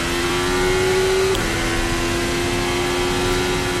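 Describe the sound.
Onboard engine sound of a Formula 1 car accelerating and braking to charge its battery: a loud, steady, high-pitched mechanical whine that holds continuously with one brief dip partway through.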